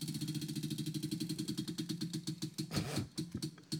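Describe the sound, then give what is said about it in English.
A prize wheel spinning gives a rapid, even run of ratcheting clicks that rattle on steadily throughout, fairly loud, with no voices over them. “Spin the wheel. All right, all right. Here we go.”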